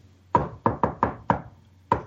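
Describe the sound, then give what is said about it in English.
Six sharp knocks on a door tap out the shave-and-a-haircut secret knock rhythm, loud and crisp, with a longer pause before the final knock. “So Doctor Strange goes, "You want in through this door? Fine." And it's and the secret knock to get it past the door is this:”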